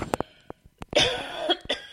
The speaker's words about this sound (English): I have a little bit of a cough this morning.